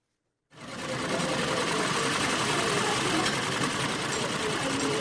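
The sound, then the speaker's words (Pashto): Sewing machines in a women's tailoring workshop hall of the women's affairs department in Paktia start after a brief silence, then run as a loud, steady, continuous whirring and rattling drone. “دا د پکتیا د ښځو چارو د ریاست په یوه سالون کې د خیاطۍ یا د جامو ګنډلو ماشینونو غږ دی.”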